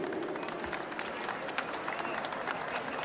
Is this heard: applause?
yes